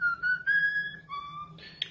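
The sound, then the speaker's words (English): A one-year-old pet bird mimics a wolf whistle with a run of clear, sustained whistled notes, ending in a short high chirp. “At just 1 year old, Bubba's vocabulary is wide and he can sing Pop Goes the Weasel, the Hawthorn Football Song, and also Wolf Whistle.”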